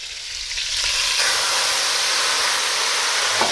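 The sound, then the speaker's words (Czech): Loud, steady sizzling hiss as plum brandy is poured over rabbit meat in a hot pan to be flambéed, a dense frying crackle that holds evenly from start to end. “mám tady slivovice, mi tady stála, jak jsme si dělali čaj, tak já tam trošku slivovice a oflambuju to. Takže zalijeme”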